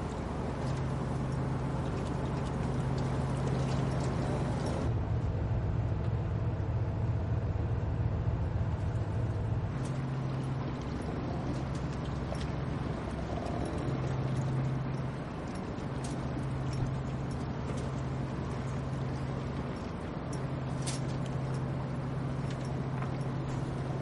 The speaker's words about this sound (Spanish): Ahora están en un barco.